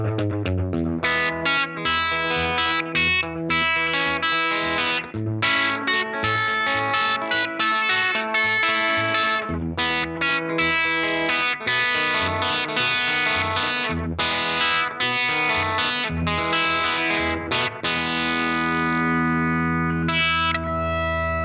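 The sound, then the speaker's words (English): Electric guitar through an Effectrode Tube Drive pedal into a Victoria 35-115 amp, a Fender Tweed Pro-style circuit with a 15-inch speaker, plays a continuous overdriven passage of chords and notes, loud and unbroken throughout. “Victoria 35-115, which is pretty much the Fender Tweed Pro circuit with a 15-inch speaker. Lovely amp, such an amazing circuit. And just those combinations, let's hear how they work together.”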